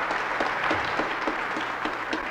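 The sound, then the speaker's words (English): An audience claps for Alaska Native dancers and singers, soft and steady, with a regular pulse running through the applause. “We need to clap more for them so they'll come again next time.”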